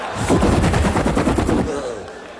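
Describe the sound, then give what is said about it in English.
A voice imitates heavy 50-caliber machine guns mounted on the front of a car, spitting out a rapid, loud run of many staccato percussive bursts that trail off at the end. “Don't you wish sometimes instead of having those cute little lights in the front of your car, you had 50 caliber machine guns mounted up there?”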